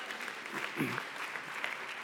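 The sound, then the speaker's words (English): Audience applause greets a guest called up onto a stage, a steady wash of clapping hands lasting the whole stretch at moderate, even loudness, with a faint voice briefly audible underneath. “give a round of applause to Houston”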